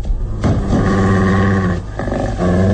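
A dog's deep, rumbling growl, made as a radio drama sound effect, rolls on in a few throaty surges with short breaks between them.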